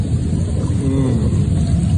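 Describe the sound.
Water churning and bubbling steadily in a home jacuzzi, a loud, continuous rushing roar with no break and no talk.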